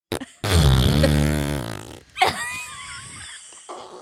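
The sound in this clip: A long, low, buzzing fart rumbles for about a second and a half, followed by a few thinner, higher squeaky sounds.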